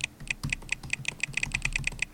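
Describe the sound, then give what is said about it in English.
Fast typing on a computer keyboard as a password is entered: many crisp, light key clicks in an even, rapid rhythm, quiet and alone. “You type in my password.”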